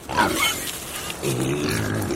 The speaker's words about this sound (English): Time to feed the pigs.